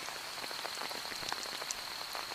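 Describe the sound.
Steady rain falls hard enough to soak clothes, a faint, even pattering of many small drops with scattered brighter ticks throughout.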